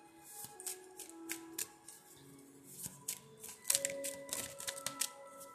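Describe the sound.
Playing cards being shuffled during a card reading: quick bursts of crisp flicks and taps, faint, over soft sustained musical tones.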